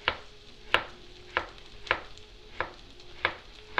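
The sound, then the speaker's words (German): A large knife slicing a big zucchini into small pieces, with seven crisp, evenly spaced cuts in a steady rhythm, faint and alone. “mit einem großen Messer. So, jetzt haben wir einen schönen großen Zucchini aufgeschnitten.”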